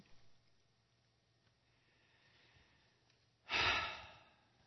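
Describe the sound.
A single deep breath is drawn and released in one loud, rushing burst of air near the end, after a stretch of faint low hum and near-silence.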